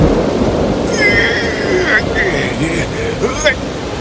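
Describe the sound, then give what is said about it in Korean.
Storm effect for a sailing ship at sea, with strong wind and rising water: a steady broad roar with high whistling gusts that come and go. A voice sounds over it. “바람은 더욱 거세졌고 물은 더 차오르기 시작했어요.”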